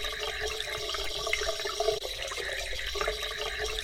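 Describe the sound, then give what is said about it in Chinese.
Water runs steadily as it rinses a person clean, a continuous splashing flow with a faint tonal ring and no voices. “那我们来冲水吧。来，让先生冲干净。”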